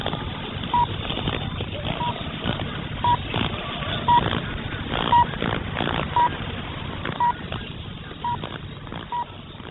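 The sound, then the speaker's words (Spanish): Time signal tones from a naval observatory in Caracas, Venezuela, received over radio: short, evenly spaced high beeps about once a second, rising just above a steady hiss of noise and static. “Al oír el tono serán las 23 horas, 43 minutos, 0 segundos.”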